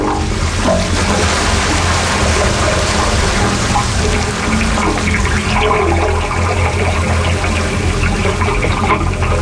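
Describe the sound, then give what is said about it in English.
Gurgling, sloshing water sounds from the wave organ on San Francisco Bay, played by tide waters as the Pacific Ocean mingles with the bay. The wash is dense, loud and continuous, with deeper resonant tones running underneath throughout. “The wave organ allows us to eavesdrop on the changing tides as the Pacific Ocean mingles with the waters of the bay.”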